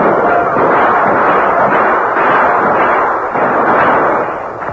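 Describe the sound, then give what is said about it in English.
Defenders crouched behind circled wagons open fire, producing a loud, dense roar of overlapping gunshots that runs with no clear gaps. “Then their concentrated fire sent the red men in retreat.”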